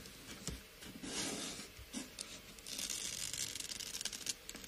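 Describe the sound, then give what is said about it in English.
Low-tack console tape for labelling a mixing desk is torn off its roll, a faint, scratchy ripping and crinkling that runs in rough bursts over several seconds. “Console tape is called console tape because you put it on a mixing console”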